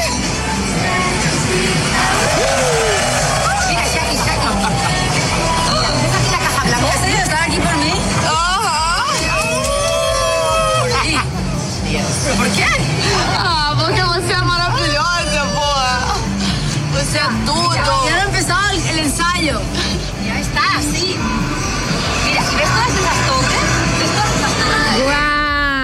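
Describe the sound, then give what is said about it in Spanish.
Excited crowd gathered outside Shakira's hotel in Copacabana as she appears at her window, a dense, loud babble of many voices and cheers that continues throughout with other voices talking over it. “Y toda la gente, ¿no? Toda la gente emocionada por ver a Shakira.”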